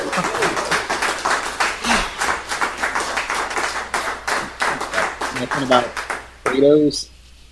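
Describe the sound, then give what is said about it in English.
Applause from a live audience: many dense, fast claps carry on steadily for about six seconds, then a voice speaks briefly near the end. “Round of applause. Round of applause.”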